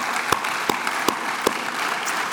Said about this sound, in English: And while you're clapping